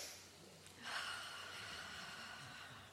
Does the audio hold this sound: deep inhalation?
yes